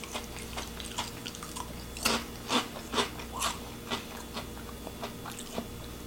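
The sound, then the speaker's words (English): Crunching as someone bites and chews crispy Lay's Poppables potato snacks: a run of sharp, dry crunches with several louder bites in the middle, over a faint steady hum. “Extremely crispy. I was not expecting these to be so crisp. They are crunchy.”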